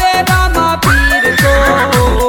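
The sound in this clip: A horse whinnies within a devotional folk song about Rama Pir's horse, one rising, wavering neigh held over steady drumbeats and instrumental backing.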